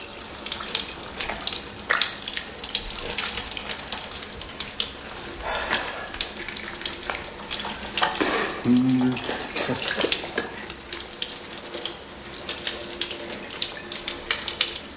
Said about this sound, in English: I usually shower alone.